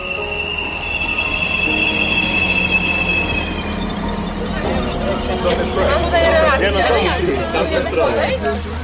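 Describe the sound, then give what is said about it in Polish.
A train arrives at a small-town station in the rain, its steady rumble overlaid by high, shrill wheel squeals. People talk over the noise toward the end. “Za chwilę przyjedzie tutaj pociąg, którym przemieszczają się uchodźcy.”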